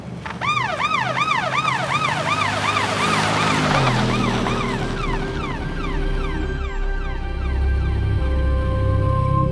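A police patrol car siren wails loudly in a fast, repeating rising-and-falling tone over a low engine rumble, continuous throughout with no voices.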